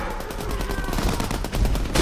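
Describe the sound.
Gunfire from mercenaries shooting their weapons in a jungle, rapid overlapping shots merging into a loud, dense, continuous barrage.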